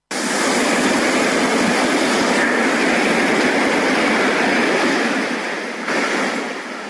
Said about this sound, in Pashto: خو اوس د دغه شار ساحلونه له خلکو تشتي او د سمندر څپې خاموشي ماتوي.